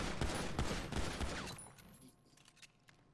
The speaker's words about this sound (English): We have shots fired.